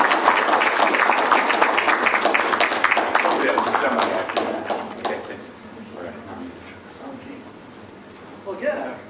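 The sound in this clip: An audience at a library talk applauds to welcome an author who writes about Michigan's boat-building industry. Dense clapping rings out for several seconds, then fades, and a single voice begins speaking.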